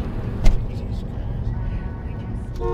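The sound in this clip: A moving car gives a steady low engine rumble and road noise throughout, with a brief knock near the start.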